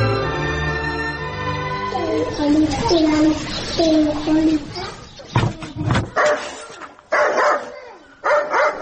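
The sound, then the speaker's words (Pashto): A dog barks in a few sharp, loud bursts during a village gathering scene in a drama, following a stretch of people talking, with voices continuing between the barks. “د سپی دې در وګرځوه چې ومې نه داړې”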